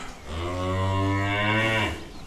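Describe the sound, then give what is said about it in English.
A cow that has just calved lets out one long, low, loud moo that holds steady for about two seconds, then fades at the end. “I unloose the cow and leave she and her newborn to each other. She licks him, and despite her size, is gentle and soft.”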